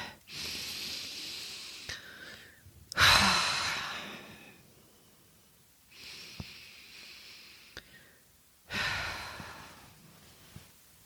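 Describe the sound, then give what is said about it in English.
Deep breaths in and out during a calming moment: two slow breathing cycles, each a long soft airy inhale followed by a louder, sighing exhale that fades, quiet and alone. “I'm just going to take a few deep breaths in and release.”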